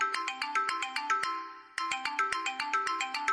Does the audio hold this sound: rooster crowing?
no

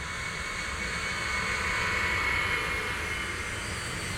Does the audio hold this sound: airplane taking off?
yes

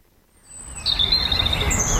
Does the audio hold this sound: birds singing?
yes

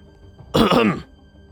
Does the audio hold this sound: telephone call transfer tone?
no

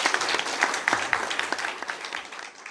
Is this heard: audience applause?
yes

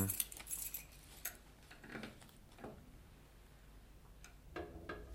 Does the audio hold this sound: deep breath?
no

